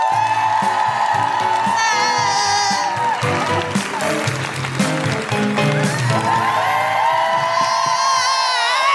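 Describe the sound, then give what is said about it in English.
A live comedy audience in Sheffield cheers, whoops and claps to welcome a comedian onstage, with many high, wavering whoops and shouts riding over loud, steady applause throughout. “Put your hands together and make incredible, welcoming Sheffield Guilty Feminist woohooing noises for the wonderful Sophie Juga.”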